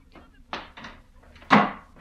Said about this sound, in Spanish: Yo estaba furioso y, como era clásico en mi casa, salí dando un portazo.